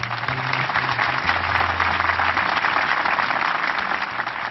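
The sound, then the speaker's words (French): A crowd of spectators applauds after the signing of the Oslo peace accord between Israel and the PLO. The clapping is a steady, dense wash that runs unbroken from start to end, with no voices standing out. “Le document signé, la foule des spectateurs applaudit.”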